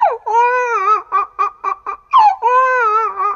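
A young boy crying at home. A long, wavering wail breaks into a few short choked sobs, then rises again into another drawn-out, tearful cry, loud and alone.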